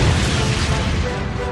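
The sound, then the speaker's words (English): A missile warhead explodes in a brush thicket with a deep, loud, rumbling roar that stays at a steady, heavy level for its whole short length. “The warhead impacted in a thicket, the brush vanishing in a roiling ball of billowing orange-yellow flame.”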